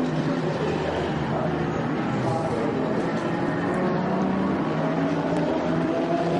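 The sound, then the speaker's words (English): Audi and Porsche race cars enter the pit lane with a steady, even engine drone that holds at one level throughout, without clear separate passes. “Into the pits comes the Audi. Into the pits comes the Porsche.”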